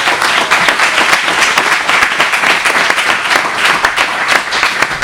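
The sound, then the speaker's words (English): An audience at an autograph event bursts into loud applause. Many hands clap in a thick, continuous patter, with individual sharp claps standing out and a steady intensity throughout. “Well, guys, hey, let's all give him a round of applause.”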